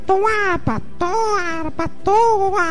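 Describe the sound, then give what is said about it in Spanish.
Babies crying in a recording: repeated wailing cries with wavering pitch come in bursts, broken by short catches of breath. “como voy a presentar ahorita unos niños llorando ahí”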